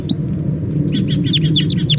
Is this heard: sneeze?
no

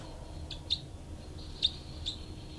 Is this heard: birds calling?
yes

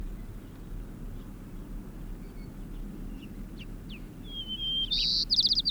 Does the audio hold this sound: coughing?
no

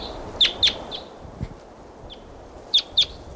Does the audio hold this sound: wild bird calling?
yes

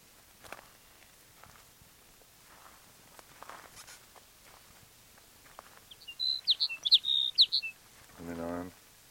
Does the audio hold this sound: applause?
no

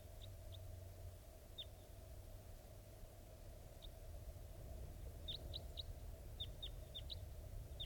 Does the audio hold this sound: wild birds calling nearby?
yes

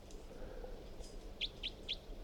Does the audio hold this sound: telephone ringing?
no

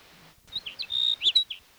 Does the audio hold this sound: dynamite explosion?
no

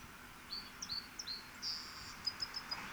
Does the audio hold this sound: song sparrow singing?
yes

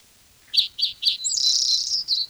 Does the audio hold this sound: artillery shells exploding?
no

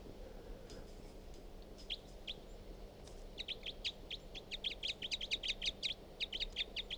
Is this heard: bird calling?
yes

